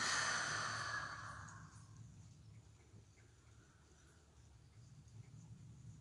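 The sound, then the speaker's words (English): A deep exhale through an open mouth, a breathy rush that is strongest at the start and fades away over about two seconds, leaving quiet breath noise. “Begin to invite a sweet, deep breath into the body. Open that mouth, exhale, let it go.”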